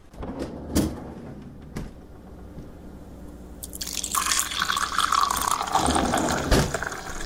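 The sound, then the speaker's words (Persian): Water is poured into a glass, a steady rushing splash that swells and grows brighter as it fills, after a few faint clicks and drips. “من اگه اشکال نداره من برم یه لیوان آب بردارم.”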